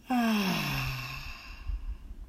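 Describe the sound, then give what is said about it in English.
A deep breath out during a guided breathing exercise: one long, audible exhale that starts with a voiced tone sliding downward in pitch, then fades into soft, breathy air. “Deep breath in. And out.”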